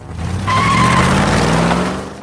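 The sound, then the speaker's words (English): Car pulling away with its tires squealing: a brief, high screech rides over a continuous engine rumble and broad road noise that swell and then ease off, with no talk. “The car heads away.”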